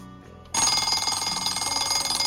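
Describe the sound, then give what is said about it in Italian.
Rapid, continuous ringing of an alarm clock bell. It starts abruptly after a short, quieter lead-in, then holds loud and steady with fast, rattling metallic pulses to the end. “gli consiglio pubblicamente qualche sveglia. Cosa ne dite di questa?”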